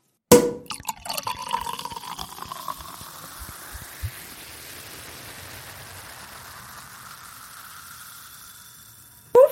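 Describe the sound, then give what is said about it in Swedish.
A champagne bottle opened and poured for a celebration: a sharp burst at the start, then a bright fizzing, bubbling hiss that slowly fades, ending with a brief louder knock. “nu öppnar vi champagneflaskan”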